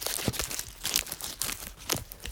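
Crinkling and tearing of a Nimm 2 candy wrapper as it is unwrapped: a few sharp crackly bursts over soft, continuous rustling, with no voices.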